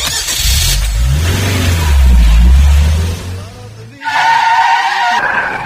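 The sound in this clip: A car drives and skids: a loud, rumbling engine roar with tire noise swells, drops out briefly, then returns with a brighter, harsher squeal.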